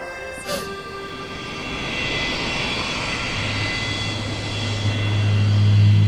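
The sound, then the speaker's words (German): Airplane engine drone in flight: a continuous broad roar with steady tonal hums running through it, holding evenly and slowly growing a little louder and deeper toward the end. “Gleich werde ich zum zweiten Mal in meinem Leben in einem Flugzeug sitzen.”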